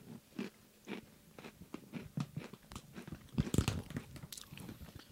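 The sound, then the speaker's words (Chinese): Crunchy biscuit being bitten and chewed, with many faint, irregular crisp crunches. “哎、这个饼干真的蛮好吃的”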